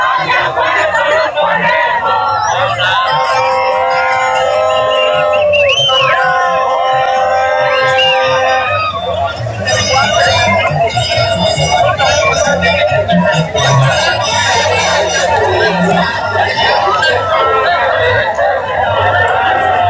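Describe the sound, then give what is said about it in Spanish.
A loud crowd sings, shouts and cheers continuously while loudspeakers play at full volume, forming a dense, unbroken wall of noise with voices chanting over it. “Donde estén la bulla no se oye un carajo, por eso es que ni entrevistar porque no me oyen. Den parlantes a todo volumen.”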